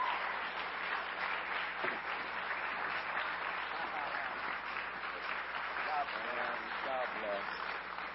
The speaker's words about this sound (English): And I want you guys to welcome Pastor Alton Garrison to the City Church stage. Come on, let's give him a great big hand.